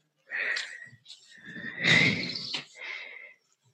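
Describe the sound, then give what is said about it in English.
Whispering breath exhaled through the throat during a breathing practice, a soft, raspy hiss with a slightly wheezy edge that comes in a few breathy surges, swelling and fading over about three seconds. “By exhaling through your throat, you'll hear a slight whisper.”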